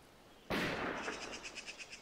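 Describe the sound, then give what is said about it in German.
Gunfire being shot at Klingsel: one sharp, loud blast bursts in suddenly, then trails off into a long, rough rumbling tail with a fast, fluttering pulse running through it. “In Klingsel schießen sie wieder.”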